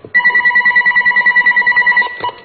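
An incoming call sets a telephone ringing: a loud electronic ringtone of rapid, evenly pulsing warbled tones that runs steadily for about two seconds, then cuts off.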